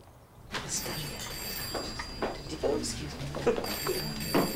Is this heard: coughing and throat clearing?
no

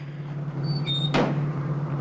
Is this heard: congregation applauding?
no

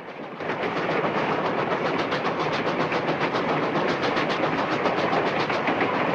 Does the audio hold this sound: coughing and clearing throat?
no

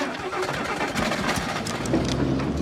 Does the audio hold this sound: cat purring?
no

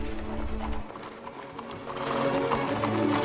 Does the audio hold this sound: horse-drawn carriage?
yes

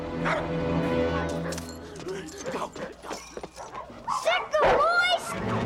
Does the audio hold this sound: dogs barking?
yes

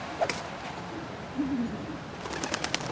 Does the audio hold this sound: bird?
yes

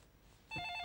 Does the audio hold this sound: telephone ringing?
yes

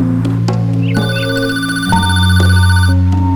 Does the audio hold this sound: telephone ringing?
yes

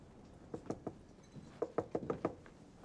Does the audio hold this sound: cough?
no

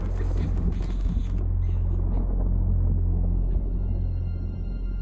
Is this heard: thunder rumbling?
yes

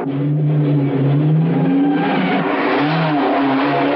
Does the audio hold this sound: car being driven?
yes

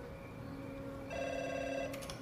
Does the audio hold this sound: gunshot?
no

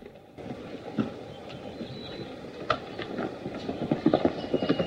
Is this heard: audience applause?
no

